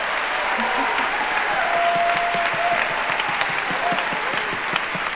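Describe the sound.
Audience applause for a producer at a live show: dense, steady clapping that holds at an even level throughout.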